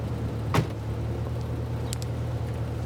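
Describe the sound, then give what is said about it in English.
A car draws up outside a prison, a steady low engine hum running throughout, with one short thump early on and a few faint higher clicks later. “As the ex-con Sam walks out of the prison, a car draws up”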